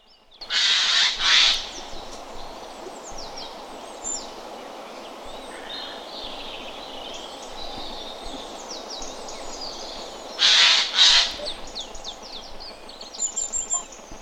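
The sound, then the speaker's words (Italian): A Eurasian jay gives harsh, rasping screeches in two pairs: a double call at the start and another near the end. Faint chirps from other birds fill the quiet stretch between them, with no voices. “Sentiamo anche un altro, c'è la ghiandaia pure, sentiamo.”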